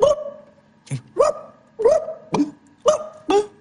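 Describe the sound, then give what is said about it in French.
A dog barks in a run of seven short, sharp barks, meant to sound like a hungry, thirsty Kabyle dog. The yelps are fairly high and bright, one lower and softer, spaced unevenly with no voices. “Faudrait un son de chien kabyle, tu vois, un chien qui a pas mangé depuis longtemps, un chien qui a soif.”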